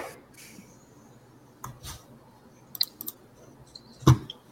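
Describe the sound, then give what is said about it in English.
Heavy jumbo metal dice rolled during a tabletop role-playing game, a few sharp, scattered clacks and knocks against a quiet background, the loudest strike coming near the end. “Are you doing like jumbo dice or something? Those sound heavy. They're metal.”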